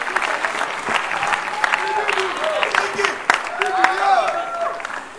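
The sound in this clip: Audience applause at a church gathering: dense, steady clapping that runs throughout, with voices calling out over it.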